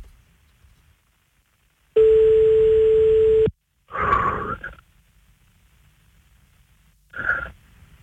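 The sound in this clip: A telephone ringing tone plays while a call is being placed: one steady, mid-pitched tone about one and a half seconds long, followed by two short breathy sounds in otherwise near silence.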